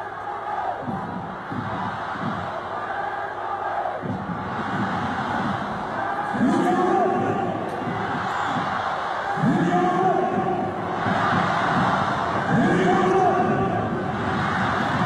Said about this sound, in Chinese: 现场主持的调动之下呢，两边的球迷啊依旧是高声呐喊为球队加油助威